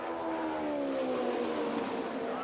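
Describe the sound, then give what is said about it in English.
An Indy 500 race car, number 3 of the Patrick Racing Team, pulls out of the pits after a quick stop, its engine a steady droning whine with a slowly falling pitch, fairly quiet and without talk. “Gordon Johncock, a quick pit stop for him. That efficient Patrick Racing Team, George Bignotti crew, puts Johncock, car number 3, back on the race course.”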